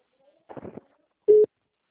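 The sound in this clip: A telephone tone sounds while placing a call: one short, steady beep at a fixed pitch, following a brief murmur of voice.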